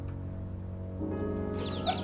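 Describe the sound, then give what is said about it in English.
Chickens in a courtyard, faint clucking over a steady low background hum, with a few brief, higher chirpy calls toward the end. “Chickens peck at seeds in the courtyard.”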